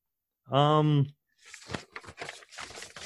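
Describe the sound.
Paper rustles and crinkles during a search for notes: a run of irregular crackly bursts that follows a single sustained vocal tone.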